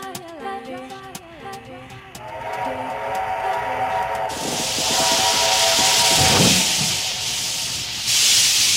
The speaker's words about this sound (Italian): Questo è un treno a vapore